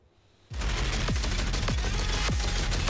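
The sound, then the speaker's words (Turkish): Loud machine gun fire from a modern MKE machine gun test-fired from a helicopter, starting abruptly after a brief quiet moment and then running as a dense, continuous, harsh rattle to the end. “modern makineli tüfek bu kez havada test edildi. 1 kilometre etkili menzile sahip olan tüfek helikopterde yapılan testleri başarıyla geçti.”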